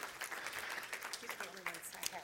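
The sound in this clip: Faint applause from a church audience for a woman being thanked, scattered uneven claps rising and falling with people talking over them.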